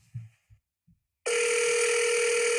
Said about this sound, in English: Let's listen to one that takes a little bit longer. Same call, but with a few more rings.